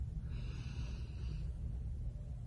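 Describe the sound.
A deep inhale during a guided relaxation breathing exercise: one soft, airy breath of about a second, quiet over a low steady hum.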